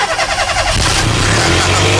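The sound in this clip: A car engine is cranked by its starter with a fast, rhythmic churning, then catches and settles into a loud, steady running drone.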